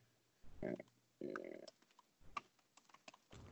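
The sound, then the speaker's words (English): Typing on a computer keyboard comes in a few short bursts of quiet clicking keystrokes, separated by near-silent gaps, with a sparser scatter of taps in between. “Tappity type type type type type.”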